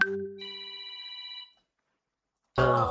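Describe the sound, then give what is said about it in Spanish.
An incoming call makes a phone ring: one bright electronic ring of layered steady tones lasting over a second, followed by silence and then a brief burst of noise. “A ver, no me estén marcando amigo, porque tú, me están cortando mis audios.”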